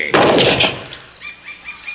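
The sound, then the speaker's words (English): A single gunshot is fired at a far-off target with a gun using hand-cast bullets. It is a loud, sharp blast that rumbles and fades over about half a second, leaving a quiet tail. “Still take aim and fire, never doubt.”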